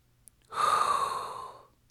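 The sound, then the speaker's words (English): A person takes a single deliberate hot breath, a loud airy inhalation lasting just over a second, heard alone. “there's only one thing left to do, and that is inhale a hot breath”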